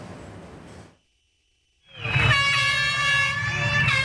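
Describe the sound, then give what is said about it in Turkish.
Air horns blare at the start of a mass public bicycle ride in Istanbul: after a brief silence, several loud, sustained horn blasts sound together over a dense roar of background noise. “Kornalar çaldı.”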